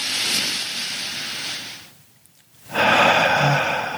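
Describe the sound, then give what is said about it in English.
A deep breath drawn into the belly: a long airy inhale, a short quiet pause, then a loud, rushing exhale that carries on to the end. “I want you to take a deep breath into your belly.”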